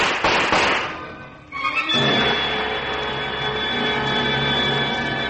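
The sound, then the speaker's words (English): Gunshots ring out in a dramatized scene as a man fires while escaping through a window: sharp, noisy bangs at first, then a sustained crackling rumble that fills the rest of the moment. “Greg practically flew out the window, firing at Della Turner and Desmond Monash as he went.”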